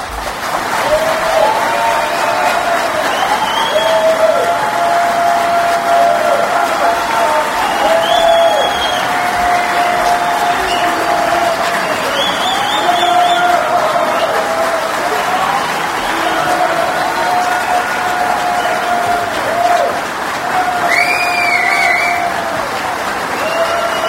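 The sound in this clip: Applause from an audience at Oshkosh greets aircraft designer Burt Rutan at Theater in the Woods. The clapping is loud and steady for the whole stretch and never breaks off.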